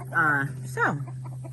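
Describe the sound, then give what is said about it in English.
Two short, harmonic rooster calls from a backyard chicken coop, the first longer and the second briefer, over a steady low electrical hum. “Our rooster is doing his thing.”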